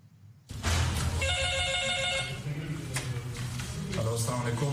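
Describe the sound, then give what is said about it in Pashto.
A telephone rings as a bright, warbling tone lasting about a second, set against a loud, dense musical backing that continues throughout. “د زنګ لا پاسه زنګ”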